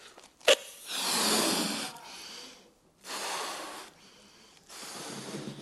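Breath blown hard by mouth to inflate something: three long, breathy gusts separated by pauses, preceded by a short sharp click, soft and airy overall.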